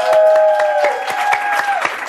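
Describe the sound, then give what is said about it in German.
Audience applause for a performer: a steady run of many claps, loud and even throughout, with a sustained tone held beneath the clapping. “Applaus für Günther, bitte.”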